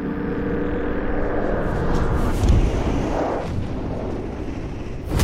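An explosion blast in a tabletop role-playing game scene: a sustained, broad roaring rumble that swells slightly midway and surges again at the very end, with no voices.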